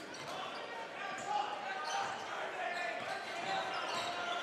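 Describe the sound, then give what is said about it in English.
A basketball is dribbled on the court during a high school boys' game. Its bounces are soft and repeated, mixed into a steady wash of gym noise. “Dribble left to right.”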